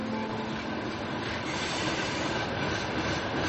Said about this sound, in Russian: И мне нравится, что здесь железная дорога, потому что я вырос у железной дороги, потому что гремит поезд, это звуки моего детства.